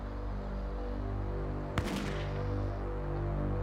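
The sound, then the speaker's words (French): A single gunshot rings out in the morning from a house on a quiet residential street of porch-fronted homes: one brief, sharp crack over a steady tonal drone. “un coup de feu retentit soudain dans le silence”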